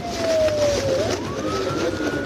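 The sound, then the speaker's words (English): A police siren wails during a high-speed car chase, its pitch sliding down, then sweeping back up, over a steady rush of traffic and engine noise. “It was another high-speed chase, sirens blaring.”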